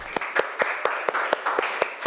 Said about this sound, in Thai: โอเคปรบมือเพื่อนหน่อยค่ะ